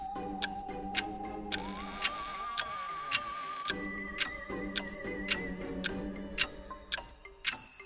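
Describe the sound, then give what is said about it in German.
A clock ticks in a steady, even rhythm, with many sharp, evenly spaced ticks over a soft sustained tone that lifts slightly in pitch early on. “Na, tick-tack, tick-tack, so klingt die Uhr.”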